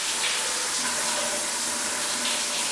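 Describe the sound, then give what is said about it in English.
Shower water streams steadily down onto a person's body, a constant broad hiss of spray with no breaks or other sounds. “She pauses as the water streams down her body, then jolts away from the shower head once more.”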